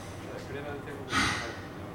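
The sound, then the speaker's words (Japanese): A singer takes a single deep breath before the next song at a live concert: one breathy inhale of about half a second, rising over a low, steady background hum. “私は一人深呼吸をしたいと思います”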